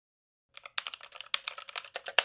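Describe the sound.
Computer keyboard typing, starting after a brief silence: a quick run of many light keystrokes clicking in an uneven rhythm, fairly quiet and alone.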